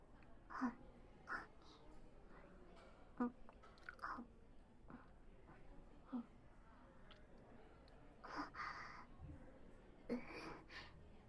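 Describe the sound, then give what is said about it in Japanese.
Faint, soft chewing of mizu yokan, a sweet bean jelly, at a shop in Shikoku, heard as a few quiet, irregular moist clicks and mouth sounds spaced across a hushed background. “おいしい、ちょうどいい甘さで、こんなに美味しい水羊羹食べられるお店、 四国にあったなんて知らなかった。”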